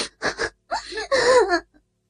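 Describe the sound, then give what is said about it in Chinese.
A woman crying loudly: two short, gasping sobs followed by longer, wavering wails that rise and fall in pitch before breaking off. “大声地哭了起来”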